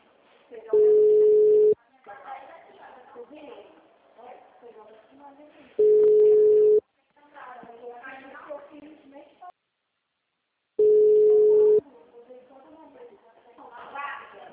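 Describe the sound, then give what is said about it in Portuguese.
An unanswered telephone call ringing out: three evenly spaced, steady mid-pitched ring tones, each about a second long, with people talking in the gaps between rings. “Deixa eu só ver se o cliente vai atender aqui rapidinho.”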